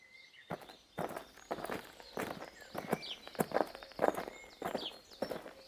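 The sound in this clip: Footsteps walking through a forest, a steady run of many evenly paced steps with clear, moderately loud impacts and no talking.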